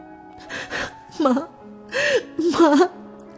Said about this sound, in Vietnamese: Nhu phủ phục ôm chầm lấy mẹ Nguyên, khóc nức nở.